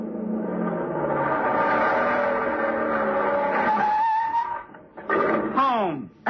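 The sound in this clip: A car speeding along at 65 miles an hour, its engine giving a loud, steady roar for several seconds before it dips and breaks into brief squealing bursts near the end.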